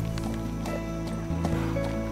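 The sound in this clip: A saddled horse walks with a rider, its hooves clip-clopping in a light, quick rhythm under steady music.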